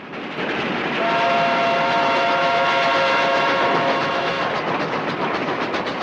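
A speeding train roars past in a steady, loud rush of rolling noise, with a sustained high whistle-like tone riding over it for a few seconds in the middle before fading back into the rumble.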